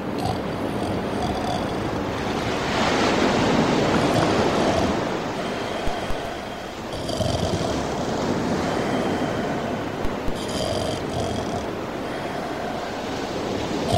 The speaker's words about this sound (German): Und man hört auch nichts als das Meer.